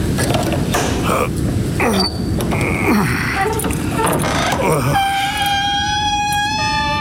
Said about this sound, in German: dann wird es dir ja nichts ausmachen, mir das Tor zu öffnen, damit ich in den Hof reiten kann.